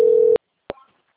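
A telephone call being answered: a steady electronic ring tone sounds briefly and cuts off abruptly, then after a short silence a single click is heard. No voices are heard.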